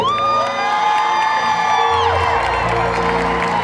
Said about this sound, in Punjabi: ਜੇ ਚੰਗਾ ਲੱਗਾ ਫਿਰ ਤਾੜੀ